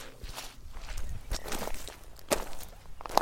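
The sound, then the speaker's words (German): Footsteps wading through water on a wet moor meadow: a steady run of soft, irregular treads and splashy rustles at a moderate level, with no voices. “Ich mache jetzt Wassertreten auf der Moorwiese.”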